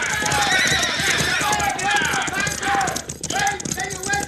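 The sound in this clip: Horses whinny loudly and gallop off with their riders mounting, several shrill neighs over a dense, continuous patter of hoofbeats, with voices mixed in.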